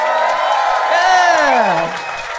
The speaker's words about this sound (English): Please give it up for Jess Perkins and Matt Stewart.